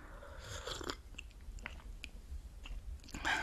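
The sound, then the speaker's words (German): A sip of coffee from a cup: soft, wet mouth noises and slurping clicks come in a few short bursts, with a fuller gulp near the end, all fairly quiet and with no talk. “Apropos, weil ich gerade vom Kaffee gesprochen habe. Ich nehme mal kurz hier einen Schluck.”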